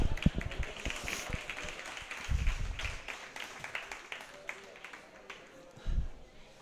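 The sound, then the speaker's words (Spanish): Audience applause at a talk event: scattered, uneven clapping and taps mixed with people talking. “Pequeño aplauso para Pedro, ¿no?”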